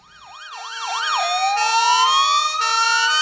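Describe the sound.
An ambulance siren in a city street cycles through rapid up-and-down wails, then shifts into a long, steadily rising tone, growing louder over the first second and staying strong, with no voices.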